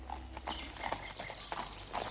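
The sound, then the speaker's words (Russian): Horse hooves clip-clopping as a single horse with two riders ambles unhurriedly through a dense forest, a steady run of many light, slightly uneven knocks over a constant soft background hiss. “Так, верхом на одной лошади, Робин отправился со своей матерью в путь длиной в 45 миль. Двигались они неспешно. Лошадь легкой иноходью трусила под сенью густого леса.”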